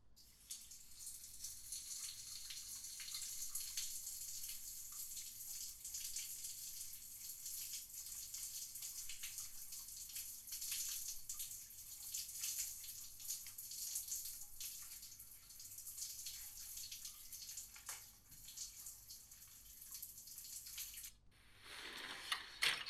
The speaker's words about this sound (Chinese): 那好吧，那我先去洗澡啊。